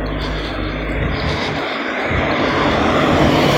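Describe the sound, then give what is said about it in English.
Heavy booming bass from a passing car forms a loud, continuous low rumble that swells slightly louder toward the end. “Here's another one. He's got a big loud bass here. You know, it never ends.”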